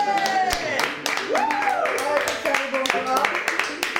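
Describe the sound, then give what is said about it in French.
Scattered applause and clapping as columnists are introduced on a French studio set, with a few sharp claps mixed with voices and whooping cheers. “Applaudissez-moi. Bravo, voilà.”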